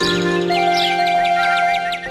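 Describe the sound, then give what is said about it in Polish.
Sparrows chirp in the morning: many short, bright chirps repeat at a quick, steady pace over sustained tonal music. “Ćwierkają wróbelki od samego rana.”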